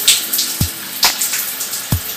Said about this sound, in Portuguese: Tá dando eco essa droga, esse barulho de chuveiro.